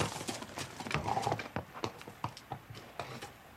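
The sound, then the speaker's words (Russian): Hooves of a black horse clop rapidly as it runs along a path toward a castle. The beats come fast and rhythmic, many in a row, at a fairly faint level. “По дорожке, приближаясь к замку, бежит черного окраса лошадь.”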